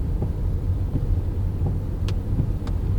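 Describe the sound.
A car pulls out of a driveway and drives on rural roads in Currituck, North Carolina, producing a steady, loud, low rumble of engine and road noise that stays even throughout, with a couple of faint, brief ticks.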